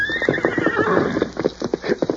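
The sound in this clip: A horse whinnies loudly in a long, shrill call that drops in pitch, while hooves clop rhythmically underneath throughout.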